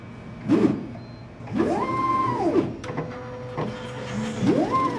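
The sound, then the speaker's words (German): Motor whine of a white laboratory pipetting robot with two long gripper arms: a few whirring movements, each rising and then falling in pitch, with a steady mechanical hum and tone between them. “Über ein Display gibt sie letzte Anweisungen. Dann schaut sie auf und erklärt. Das ist jetzt unser Pipettierroboter,”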